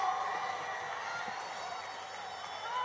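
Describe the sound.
An outdoor crowd in a park applauds and cheers at the final of a carnival murga contest in Las Palmas, with a dense, steady wash of clapping that holds evenly throughout.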